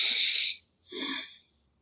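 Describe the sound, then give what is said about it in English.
A deep breath drawn in through the nose gives a soft, airy hiss of about half a second. A second, shorter breath sound follows after a brief pause. Both are quiet and there is no talk. “take a deep breath in through your nose”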